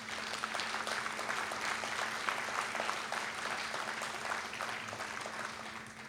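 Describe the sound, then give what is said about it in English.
An audience applauds to welcome a performer on stage. The clapping is full and continuous, with a faint steady hum beneath it, and it eases off slightly toward the end. “Will you please welcome Tal Bachman?”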